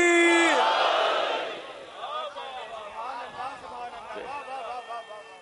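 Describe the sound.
A crowd answers the Nara-e-Haidari chant call with a loud, unified shout that swells and fades over about a second and a half, then a single voice speaks.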